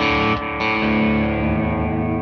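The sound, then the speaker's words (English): Electric guitar played through a Clarksdale overdrive pedal and tape echo: a thick, distorted chord rings out, is briefly choked and struck again, then sustains and slowly fades with a buzzing tone. “on this preset we'll have the Clarksdale and the tape echo”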